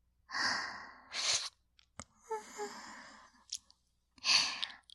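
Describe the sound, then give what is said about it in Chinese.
Deep breaths drawn in to savour a sweet smell of a pastry with cream, raisins and sweet beans: a few loud, airy inhaling rushes with short gaps and faint clicks between them, no talking. “好香啊，忍不住要大口呼吸，吸得肚子都鼓起来。”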